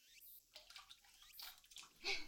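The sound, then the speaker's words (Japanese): Water sloshing and trickling as ingredients go into a pot of boiling water for curry. The sounds are faint and soft, ending in a brighter splash. “ほら、鍋のお湯沸いたから具材入れるよ。”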